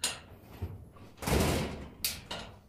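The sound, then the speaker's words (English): An old box that sat on a rock for years is pried open: a few dull knocks, then a long, rough scraping rush and two sharper clacks, with no voices. “No, let's just open this box, because I have the suspicion it's been sitting on top of that rock for 15 years.”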